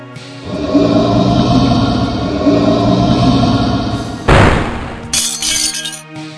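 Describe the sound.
A holy light barrier cracks like breaking glass: a sustained shimmering tone holds, then a loud sudden shattering crash bursts out, followed by bright glittering tinkles and fragments ringing out.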